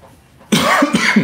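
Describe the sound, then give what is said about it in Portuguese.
A single person's cough bursts out after a moment of near-silence: one harsh, loud onset followed by a few rough, rasping pulses, heard alone without talk. “falou de tosse, até eu tô com a minha”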